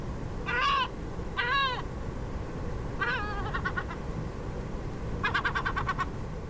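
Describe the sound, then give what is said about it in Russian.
Herring gull calls: a few drawn-out, wavering cries, then quick runs of short yelping notes. The calls sound fairly loud over a steady low rumble of background noise. “А вот голос серебристой чайки.”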